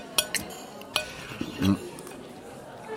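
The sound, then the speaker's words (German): Dishes and cutlery clink as three plates of cold roast are served and wine is poured: a few sharp, bright clinks at uneven intervals, then a short, duller low knock, with a quiet background between them. “Abdul, der seit Jahren Chef des Service in der Kunsthalle war, brachte 3 Teller mit kaltem Braten und schenkte Wein ein.”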